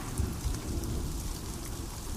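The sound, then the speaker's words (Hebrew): Rain falls steadily, making a soft, dense hiss of drops that stays even throughout. No voices are heard. “טיפות של גשם”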